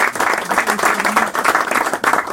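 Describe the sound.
Audience applause at the close of a Spanish-language lecture: dense, steady clapping from many hands throughout.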